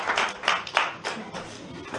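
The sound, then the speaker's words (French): Scattered applause from an audience at a teaching session: a few sharp, irregular claps at modest volume with no clear steady rhythm. “Voilà, applaudissez pour elle.”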